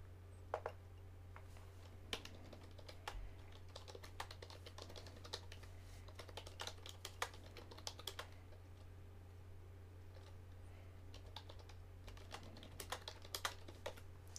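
Typing on a computer keyboard: many quick, irregular key clicks, faint and uneven in rhythm, over a steady low hum with no voices.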